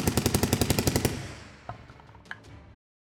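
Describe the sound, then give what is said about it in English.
A machine gun empties an entire drum of bullets in one loud, rapid burst of evenly spaced shots, then the sound trails off into a fading rumble with a couple of sharp clicks. “as he unloads, and you just see shells exploding out from this thing as he unloads an entire drum of bullets.”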